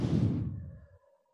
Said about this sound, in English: taking a deep breath in through your nose, exhaling out of your mouth.